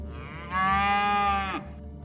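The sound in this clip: A cow moos once, a drawn-out, low, tonal lowing lasting about a second that stands alone over a quiet background.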